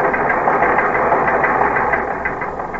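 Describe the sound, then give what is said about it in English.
Teletype machine printing: a continuous, busy mechanical chatter of rapid clacking strikes that runs steadily throughout and eases slightly toward the end. “The teletype machine continued to pound out promotions”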